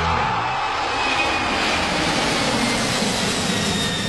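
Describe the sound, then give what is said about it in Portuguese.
An airplane sound effect: a loud, steady engine roar with broad, hissing jet-like drone that stays level for about four seconds. “Basta você anotar quantas vezes você ouve o Avião do Estádio 97 passar em qualquer dia do programa”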